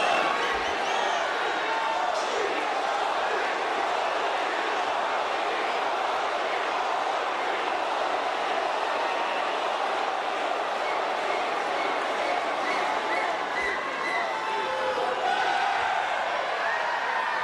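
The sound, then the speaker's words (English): Arena crowd roaring in welcome for Indian Prime Minister Narendra Modi at Sydney's Olympic Park in 2023, a dense, loud, steady wash of cheering that holds without pause for the whole stretch. “the last time Prime Minister Modi visited in 2023, they packed an arena in Sydney's Olympic Park to give him a rock star welcome. Let's have a listen.”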